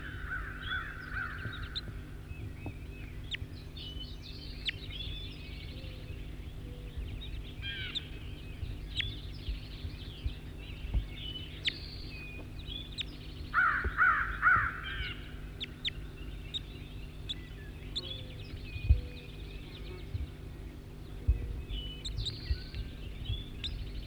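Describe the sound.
Harsh, crow-like caws from a bird caught in a net, a few calls early on and another cluster midway, over a steady low hum with faint scattered clicks.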